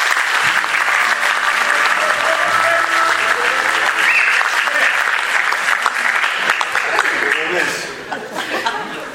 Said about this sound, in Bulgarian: Моля, аплодисменти.